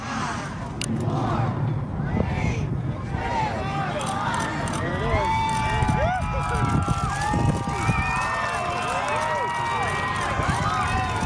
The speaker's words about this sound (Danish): Det her, det er lyden af amerikanske tilskuere, der ser den her sidste rumfærge lette fra USA med kurs mod rummet.